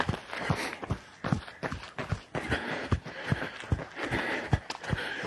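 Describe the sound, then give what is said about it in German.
A runner overtakes with quick, steady footsteps, each a soft thud in a regular fast rhythm over a light rushing background. “Oh, jetzt werde ich hier von einem Läufer überholt.”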